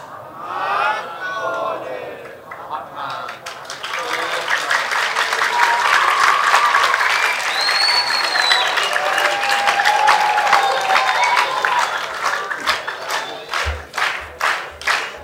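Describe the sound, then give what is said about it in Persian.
Audience applause swells from scattered clapping into a loud, dense ovation, then thins into separate rhythmic claps toward the end, with a few cheers and whistles rising over it. “نه اگه برای احمد نیکبختیان میخواید دست بزنید، یه جوری دست بزنید که صداش تا هامبورگ بره.”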